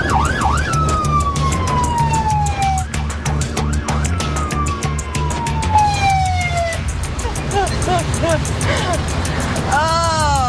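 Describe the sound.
Fire truck siren from a truck bound for St. Teresa Point, long gliding tones sweeping downward alternate with quick warbling yelps, all riding over a low, rumbling engine drone.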